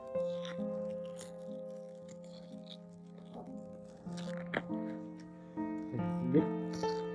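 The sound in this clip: Plastic packaging crinkles and tears as someone struggles to rip it open. Scattered crunching bursts, the sharpest near the end, sit under people talking.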